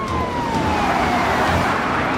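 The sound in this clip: A police siren wails during a high-speed chase after a stolen car, its tone gliding downward over a constant loud roar of engine and road noise.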